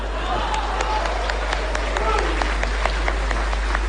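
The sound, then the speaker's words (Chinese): Audience applause after a sung traditional opera-style piece: scattered, crisp claps with many overlapping hits against a steady low hum, and voices mixed in. “可以鼓掌了。”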